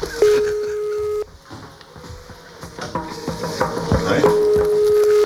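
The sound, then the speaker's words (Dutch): A telephone call being placed to someone still in bed: a steady ringback beep of about a second sounds, followed by clattering and rustling, then a second matching beep. “We proberen iemand op te bellen die in zijn bed ligt.”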